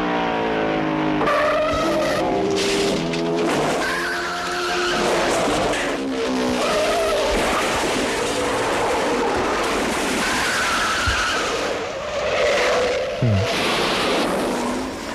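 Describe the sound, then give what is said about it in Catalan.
Racing cars skid and roar in the opening of a 1966 racing film, with loud squealing tires and wavering engine howls running continuously and densely throughout. “Una, del grandíssim John Frankenheimer, el 1966, Gran Prix, amb uns primers minuts estel·lars que comencen així.”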